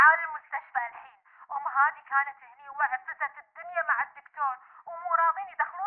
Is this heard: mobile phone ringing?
yes